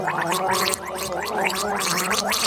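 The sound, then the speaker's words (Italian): Someone gargling, a steady wet bubbling rattle that runs continuously and fairly loud for the whole stretch, with only a slight dip early on and no talk over it. “Ma cos'è? I gargarismi, che cos'è?”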